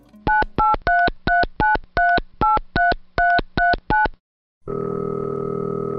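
Telephone keypad tones as a call is placed: a quick, even series of about a dozen short beeps, then a brief silence, then a steady continuous line tone.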